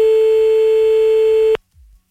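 Telephone busy signal heard when calling a number back: a steady, loud single tone holds for about a second and a half, then cuts off abruptly, followed by a brief faint low sound.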